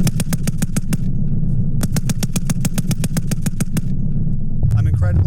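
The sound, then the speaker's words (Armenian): Rapid automatic weapon fire comes from test firing by American and Georgian military instructors at a military training range. Two loud bursts of evenly spaced shots are separated by a short pause, and a different rumble follows. “Ամերիկացի և վրացի զինվորական հրահանգիչները Վազյանի փորձադաշտում ցուցադրել են այդ զենքի կարողությունները փորձնական կրակոցներ արձակել։”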